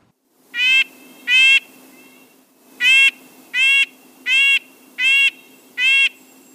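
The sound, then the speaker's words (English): Red-breasted nuthatch giving its yank yank call: seven short, nasal, tinny notes. A close pair comes first, then a pause and five more evenly spaced, all clear and loud over a faint low hum. “that was the yank yank call of a red-breasted nuthatch. I think it sounds like a tiny tin horn.”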